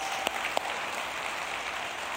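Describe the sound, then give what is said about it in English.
A church audience applauding to welcome everyone at a service. The clapping is a steady, even wash of sound, with a couple of sharper claps near the start. “Can we just give everybody a big hand? Can you guys help me? Welcome, everybody.”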